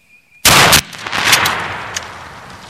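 A single loud gunshot fired while hunting, a sharp blast followed by a long, fading rumble.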